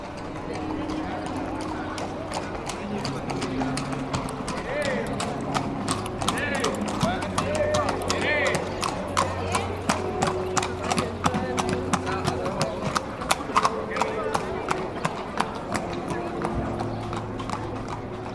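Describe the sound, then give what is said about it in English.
Horses' hooves clip-clop through a street in the centre of Seville with a steady, regular run of many crisp strikes throughout, over a constant low background hum and indistinct voices. “if you take this field recording, for example, of the sound of horses in Seville. That's a pretty traditional sound that we hear all over the centre of the city. And it sounds like this.”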